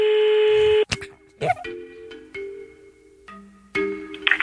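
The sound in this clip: A telephone is dialed to call a listener in the Tarn-et-Garonne département: a steady tone, then a series of short beeps and electronic tones, ending in a brief burst of higher tones.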